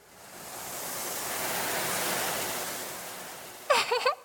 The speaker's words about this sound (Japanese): ほとんどお湯抜けちゃったんじゃないこれ。